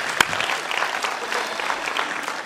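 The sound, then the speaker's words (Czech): Audience applause for guests and dancers: dense, even clapping from many hands continues without a pause, with one sharper clap near the start. “Wow, pojďme ještě jednou zatleskat nejenom našim hostům, ale také všem tanečníkům, kteří tady tančili před něma.”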